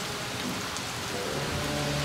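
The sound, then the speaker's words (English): Heavy rain pours during a raging storm around a ship at sea, a dense, unbroken hiss of falling water that stays loud and even throughout. “There is a storm outside and the ship is going to be torn apart.”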